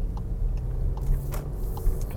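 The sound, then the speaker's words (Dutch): A police car driving past: a steady low engine and road rumble with a few faint clicks on top. “dan komt de politie langs rijden.”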